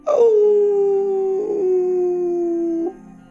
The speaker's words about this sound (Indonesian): Tahu kan suara anjing melonglong kayak gimana?